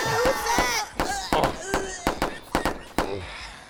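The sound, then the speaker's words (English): Gunshots from an intruder shootout inside a radio station: many sharp, cracking bangs in an irregular rapid burst, with a man shouting in alarm between and over the shots. “Oh shit, he's got a gun! Oh shit, shit! Oh fuck!”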